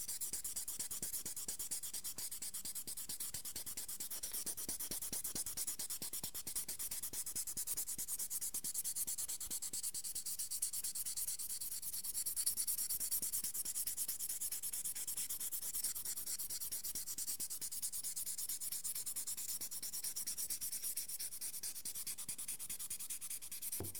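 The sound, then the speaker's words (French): Wet sanding of lacquer with sandpaper dipped in water gives a soft, continuous rubbing hiss with a steady back-and-forth texture, quiet and even throughout with no talk. “Donc, je remets mon papier dans l'eau. Et je vais continuer mon ponçage.”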